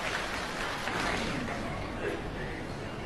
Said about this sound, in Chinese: 谢谢朋友们的掌声。